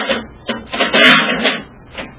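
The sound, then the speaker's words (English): A spaceship hatch being opened as a radio drama sound effect, heard as several loud metallic clunks and scraping bursts with no voices over them. “There doesn't seem to be any sign of life, sir. I don't see any lights in the ship. Let's get the hatch open.”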